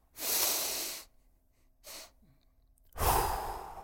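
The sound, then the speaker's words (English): Breath sounds from a relaxation breathing exercise: a long, airy breath, a short extra breath, then a long, slow exhale. Three breathy bursts, the middle one brief, with no talking. “Okay, so long exhale in, one tiny little exhale again at the top, and then long exhale out, all the way out.”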